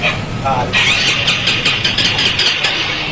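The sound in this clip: A stalled motorcycle's electric starter cranking without the engine catching, a loud steady whirring whine with rapid pulsing beats that runs on for a few seconds.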